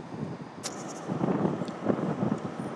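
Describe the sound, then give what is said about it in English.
Strong, freezing wind blows outdoors in Reading on a sunny day, buffeting the microphone with a steady low rumbling roar that swells in gusts, with a few faint higher clicks. “if they wanted to create a wind tunnel at Reading, they've done an absolutely splendid job.”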